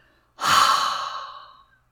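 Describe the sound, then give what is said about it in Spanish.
A single deep inhalation during a guided breathing exercise: a long, airy breath that swells quickly, holds steady, then gradually fades out, with no other sound. “Inhalando profundamente.”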